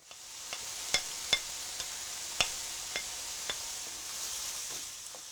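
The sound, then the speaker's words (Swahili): Onions and bell peppers fry in a pan after chicken has been browned in it, giving a soft, steady sizzle. Several sharp clicks of stirring break through the sizzle, and there is no talk. “Kaanga vitunguu na pilipili hoho hadi viwe angavu.”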